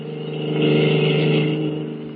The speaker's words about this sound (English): At the moment, they are speeding away from the naval base in a stolen car.